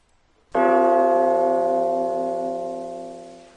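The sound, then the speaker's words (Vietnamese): A bell gives a single unhurried stroke after a moment of silence. Its rich, humming tone rings loud, then lingers and fades slowly over about three seconds. “Một tiếng chuông thong thả không biết từ chỗ nào vang lên, kéo dài thật lâu không dứt.”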